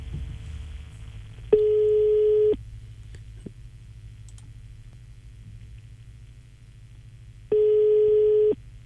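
Ringback tone on a telephone call, two long steady electronic buzzes of even pitch separated by a long pause, over a faint low rumble.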